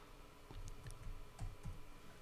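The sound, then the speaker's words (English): Typing on a computer keyboard to run a search: a few faint, light key clicks at an uneven pace over a steady low background hiss. “How do I search this? Hominy. Okay. You type it.”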